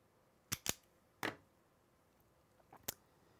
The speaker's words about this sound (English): Okay, so let's trim off wire there, just a little more.